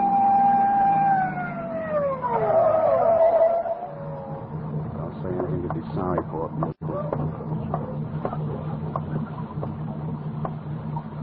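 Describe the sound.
A police car siren wails as a speeding car is pulled over on wet roads. The steady tone sweeps downward in pitch and dies away after about three seconds, then people talk over a low engine drone.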